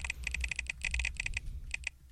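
Keys clatter on a computer keyboard as a sample password is typed, in quick irregular bursts of light clicks, a short pause, then a couple of final keystrokes.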